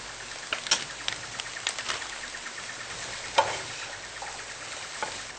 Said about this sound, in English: So you just keep mixing it, stirring it, and mixing it until it goes straight through and it's brown.